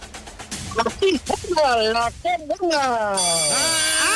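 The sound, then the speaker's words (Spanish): A telephone rings with a bright, high trill that starts near the end, after a person's loud, expressive voice sweeps up and down in pitch. “¡Ay, ya está llamando!”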